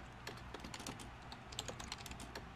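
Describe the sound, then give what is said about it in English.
Light, quiet typing on a computer keyboard: many quick, irregular keystrokes clicking on their own, with no talk. “And I'm going to type”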